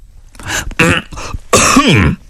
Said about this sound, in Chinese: 萨科齐不好意思地清了清嗓子。